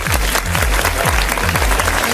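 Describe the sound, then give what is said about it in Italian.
Audience applause at a DJ party event: a dense, continuous clatter of clapping over music with a repeating low, falling tone, loud and steady throughout. “Facciamo un applauso?”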